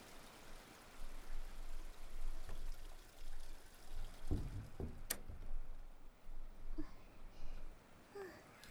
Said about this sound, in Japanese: トイレで流してこよっか。